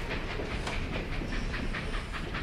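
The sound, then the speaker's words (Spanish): An old train rolls past, a loud, steady rumble and hiss with a rhythmic clickety-clack of wheels on the rails that holds even throughout. “Y es un tren que ya le puedes oír con todo su poder.”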